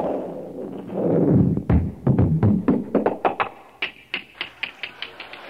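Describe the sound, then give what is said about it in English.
Kicking a cheap plastic doorknob gives hollow plastic knocks: a muffled thump, then a rapid run of many sharp, light taps at an even pace that slowly fade. “Got rid of that one, didn't you? However, that was the wrong doorknob. That was a cheapie made out of plastics.”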